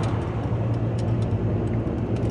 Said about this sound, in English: We're driving somewhere, but not to the airport because my flight was delayed.